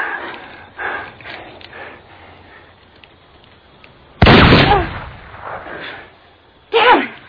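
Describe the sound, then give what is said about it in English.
A single loud, sharp gunshot fired at a rope, an abrupt booming crack that rings briefly. Quieter voices and rustling come before it, and another brief loud burst follows shortly after. “I'm going to try to shoot the rope.”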